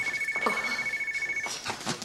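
A telephone rings in a house: a rapidly pulsing high ring holds steady for about a second and a half, then stops, leaving faint background noise.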